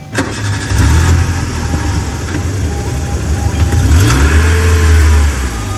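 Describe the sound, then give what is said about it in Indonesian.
A car engine cranks and catches, then settles into a steady mid-pitched running hum. It revs a little higher as the car moves off slowly. The sound is loud throughout, and no one speaks. “Geleser mobil maju lalaunan, ngajungjung ke rumah sakit mun dituju ku Pak Aris.”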